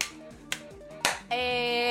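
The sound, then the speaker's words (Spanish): Three sharp hand claps, roughly half a second apart, are made as part of a clapping guessing game. Right after them a bright, sustained tone begins and holds to the end. “No, vos aplaudí primero y yo adivino para quién es ese aplauso, ¿te parece?”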